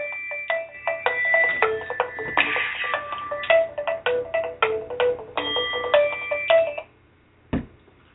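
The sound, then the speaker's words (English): A mobile phone's ringtone plays a melody of many quick, bright notes for about seven seconds, then stops. A single dull thump follows in the quiet. “That's my phone. Don't worry about it.”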